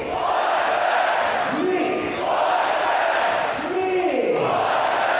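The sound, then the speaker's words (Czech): An ice hockey crowd at Budvar Arena in České Budějovice chants the goal scorer's name after a goal. The loud, sustained chant keeps a steady repeating rhythm throughout. “Nikulesen tedy dává gol a teď ho zase Budvar Arena, tady diváci oslaví jméno úspěšného střelce.”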